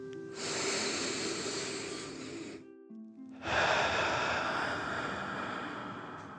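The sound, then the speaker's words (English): Deep dragon breath during a guided exercise: a long, forceful, hissing breath in, a brief pause, then an equally long, strong, breathy exhale, with soft sustained music tones underneath. “You continue to trace the infinity symbol as you take another deep dragon breath in and out.”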